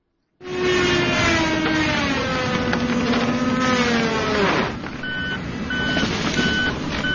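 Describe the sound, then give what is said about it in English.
Chainsaw and truck noise from tree cutting at a historic golf course in a city park: a loud, continuous engine drone with a harmonic whine that slowly falls in pitch, then drops away, followed by repeated steady electronic beeps over lower rumbling. “That's the sound of chainsaws and trucks yesterday at East Potomac Park here in D.C. as the National Park Service began a new round of tree cutting at the historic golf course near the National Mall.”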